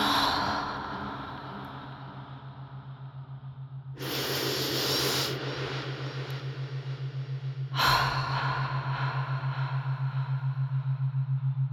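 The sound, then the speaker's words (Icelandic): Slow breathing during a guided relaxation: a long, airy inhale followed by a breathy exhale, both soft and set over a steady low hum. “Öndum inn. Og út.”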